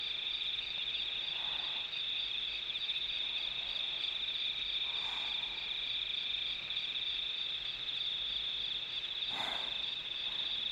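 Insects chirping at night in a steady, shrill drone, a continuous high trill that holds evenly throughout, with a few faint, brief calls rising now and then.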